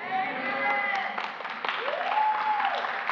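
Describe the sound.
Church audience applauding to welcome a new member, a steady, dense clatter of many hands that holds at an even loudness throughout, with voices rising over it.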